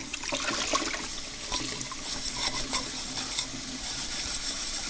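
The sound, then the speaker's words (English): Running water splashes with scrubbing and light scraping as a saucepan is washed out. A steady hiss runs throughout, with many brief clinks and knocks scattered across it. “what we need to do here is wash out this saucepan. So let's do some washing.”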